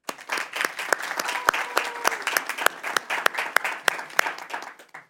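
Applause from a meeting audience welcoming two new members: dense, steady clapping that fills the whole stretch, with many overlapping hand claps and no voices over it.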